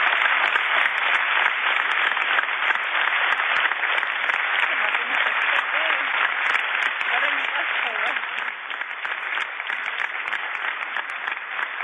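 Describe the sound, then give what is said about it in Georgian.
An audience applauds at the end of a film premiere screening, a dense, unbroken roar of clapping that stays loud for the whole stretch, in a rough, low-quality recording. “აპლოდისმენტები შეხვდა პუბლიკა.”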